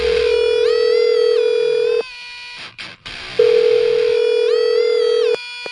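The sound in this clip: Telephone dial tone on an outgoing call as a number is dialed: a loud, steady electronic tone in two long stretches, cut by a brief break with a few faint clicks. No one talks.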